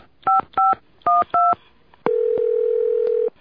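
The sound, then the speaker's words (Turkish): Four short two-tone beeps of a telephone being dialed to reach the exchange operator, followed by a single long steady tone lasting over a second. “Sakın telefonu bozuk olmasın. Dur bakayım, bir de santralı çevireyim.”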